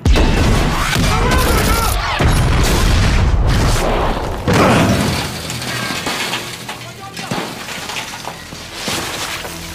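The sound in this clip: Heavy gunfire booms in a dense, loud barrage of overlapping blasts and cracks as firing orders are carried out. The barrage eases partway through, then continues with scattered, somewhat quieter shots.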